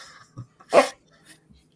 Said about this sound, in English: Whose dog?